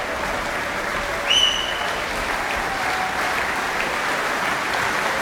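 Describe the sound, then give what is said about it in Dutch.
Sustained, enthusiastic applause from an audience of about 400 people for a string quartet at the opening concert of a music festival of Beethoven string quartets, a dense, steady clapping wash that stays loud throughout without talk. “ik schat inderdaad zo'n 400 man, blijft enthousiast klappen. En hoopt dat het kwartet nog een keer terugkeert.”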